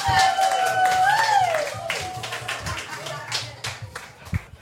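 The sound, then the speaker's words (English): Audience applause welcoming an act to the stage, loose scattered claps and taps that begin under a speaking voice, then continue on their own and gradually thin out toward the end. “Please put your hands together and welcome to the stage, Zach Dyer, everyone.”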